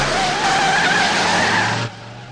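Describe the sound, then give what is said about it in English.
A car's wheels spin on an icy driveway as it races away: a loud, steady tire screech with a slightly wavering pitch over a low engine rumble. The screech cuts off abruptly near the end, leaving only a faint hum. “Jumping into his car, he hits the gas, spinning the wheels on the icy driveway before racing away.”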